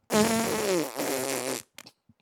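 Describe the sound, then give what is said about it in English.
A long, loud, buzzing fart lasts about one and a half seconds, its tone wavering midway, then trails into a couple of short sputters and silence. “I got these Depends on now because at my age, you can't trust a fart.”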